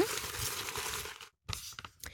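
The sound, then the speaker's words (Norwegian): Paper rustling as a slip is drawn from a pile of listener questions: steady crinkling and scraping for about a second, a brief silence, then a few short rustles. “Jeg trekker første lapp.”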